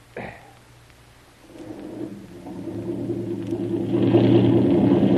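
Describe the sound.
A boat engine revs as the boat pulls away, a low rumbling drone that starts after a brief quiet moment and builds steadily louder, growing fuller toward the end, with no talking.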